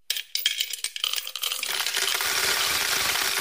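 Coins dropping into a piggy bank: a few sparse metallic clinks at first, then a rush of jingling and rattling that builds into a steady, bright cascade, heard alone.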